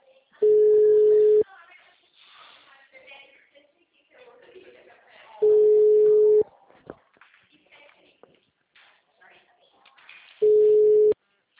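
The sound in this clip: Ringback tone of a recorded outgoing telephone call: three steady, mid-pitched beeps about a second long, spaced roughly five seconds apart, with faint murmuring and rustling in the gaps.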